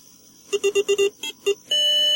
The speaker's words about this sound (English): Does your computer sound like this?